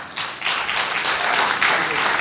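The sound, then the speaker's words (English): An audience applauds a welcome for a visiting pastor, with dense, continuous clapping that starts quickly and stays fairly even throughout. “So let's give him a wonderful Chicago welcome.”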